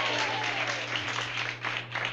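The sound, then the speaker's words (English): Bluegrass show audience applauding the bass fiddle player Douglas Green from Ann Arbor, Michigan, a steady, even burst of clapping for about two seconds. “Let's give Doug a hand.”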